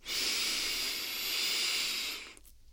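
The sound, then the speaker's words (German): A deep inhalation through the nose during yoga breathing practice: one long, steady airy hiss lasting a bit over two seconds, then an abrupt stop, with no talk over it. “und gleich noch einmal über die Nase ein”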